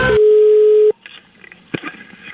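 A telephone tone sounds while a call is placed: one steady, mid-pitched tone lasting under a second, then it cuts off, leaving faint line noise and a few brief soft sounds.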